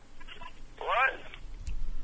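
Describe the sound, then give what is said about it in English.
An incoming telephone call on a radio show sounds as a brief warbling ring-like tone of about half a second, heard amid talk and background noise. “Phone call. From the Army.”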